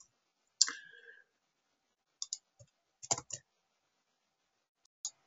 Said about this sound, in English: here I am, you know, typing with clumsy fingers